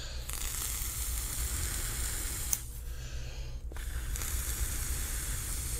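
Sizzling hiss from a vape coil fired with juice-soaked cotton packed into it. A steady, crackling hiss runs almost throughout, thins briefly about midway, then returns.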